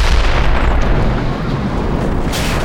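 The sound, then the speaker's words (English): The top of a house blows apart in an explosion: a loud, dense, low roar that rumbles without a break for nearly three seconds, with a brief brighter burst near the end and no voices. “The three men hadn't made it to the street when the top of the house exploded.”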